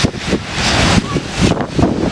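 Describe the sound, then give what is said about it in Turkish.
Giant waves hit the California coast during Hurricane Rachel. Loud, surging surf rolls in repeated swells while heavy wind buffets the microphone. “Kaliforniya kıyılarını dev dalgalar vurdu.”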